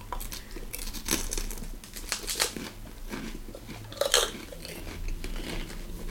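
Biting and chewing an edible cup produces crisp, crunchy snaps mixed with wet chewing, several crunches at an irregular pace, one sharper bite standing out, with no voices.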